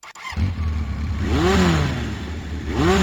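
A motorcycle engine catches after a brief click and settles into a loud, rough running note, then revs twice, its pitch swooping up and back down each time.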